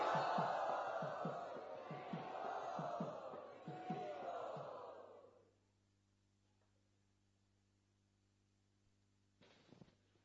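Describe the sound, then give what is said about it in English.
A crowd loudly chanting Hare Krishna in welcome: many voices join in a rhythmic, pulsing chant for about five seconds before it stops, leaving near silence. “Let us offer our sincerest welcome by loudly chanting Hare Krishna.”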